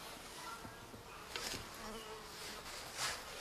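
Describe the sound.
A bee caught in an insect net buzzes in a faint, continuous drone that wavers slightly in strength and never stops.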